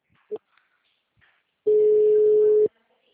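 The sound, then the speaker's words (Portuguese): Telephone tone on an outgoing call: a brief faint beep, then one steady, loud, mid-pitched ringing tone lasting about a second before cutting off into silence. “Tô ligando pro Renato.”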